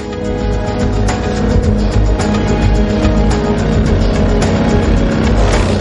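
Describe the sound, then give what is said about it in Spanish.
A chopper motorcycle with open handlebars and a chrome fork rides along a tree-lined road, its engine a loud, steady roar that holds without pause throughout. “Conduce por una carretera bordeada por árboles y abundante vegetación. La moto es una chopper de manillar abierto y horquilla cromada.”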